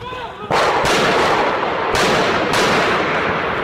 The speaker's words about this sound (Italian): Questi sono gli spari con i fucili Kalashnikov da parte di questi attentatori, con passamontagna, vestiti di nero